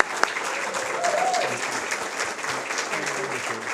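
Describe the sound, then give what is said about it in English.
Audience applause: dense, steady clapping holds at an even level for nearly four seconds, with some voices mixed in. “Please give Carol a hand. She was just tremendous.”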